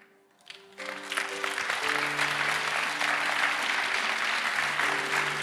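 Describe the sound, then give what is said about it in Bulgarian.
Audience applause starts after a brief quiet moment and then holds as a dense, steady wash of clapping, with sustained low tones underneath. “А, ръкопляскането ви.”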